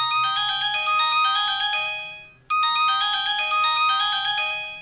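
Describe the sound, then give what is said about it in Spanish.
A bright, melodic phone ringtone announces an incoming call, its quick high notes looping loudly twice with a brief dip between rounds and no voices. “tengo otra llamada”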